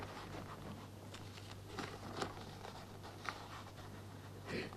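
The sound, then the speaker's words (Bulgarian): A pen scratches faintly as a letter is written by hand in ornate church-style lettering: soft, irregular strokes with a few slightly sharper scrapes over a low, steady hum. “По-скоро да напиша писмото. Но с черковни букви.”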